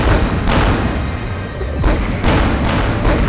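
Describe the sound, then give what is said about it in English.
Heavy warship guns firing, several broad booming shots bursting over a continuous low roar, with a long gap after the first blast and then a quicker run of shots. “There go the guns!”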